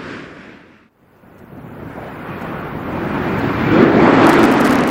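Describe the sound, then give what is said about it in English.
Space shuttle Discovery lands on a runway, main gear touching down, as a broad rushing roar that drops out briefly near the start, then builds steadily louder over several seconds. “Main gear touchdown. The nose of the shuttle being rotated down toward the flight deck. The parachute being deployed.”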